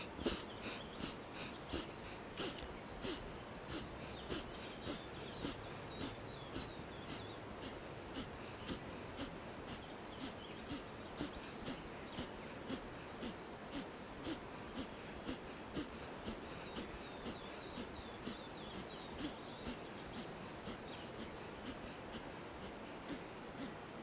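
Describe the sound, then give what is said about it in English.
Rapid alternate-nostril breathing, the belly pumping on each exhale, gives a steady train of many short, sharp nasal huffs at an even quick pace over a continuous soft background wash. “It's got a real enlivening force to it, this alternative breath, this Nadi Shodhana. So it's in through the left, out through the right.”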